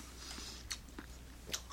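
Chewing of sticky, soft mitarashi rice dumplings, with a few faint, moist bites and squelches spaced apart over a low, steady hiss, and no voices.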